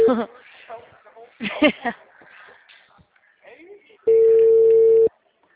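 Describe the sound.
An outgoing phone call rings out with a single steady ringback tone, a flat, buzzy mid-pitched hum about a second long, following a stretch of talk.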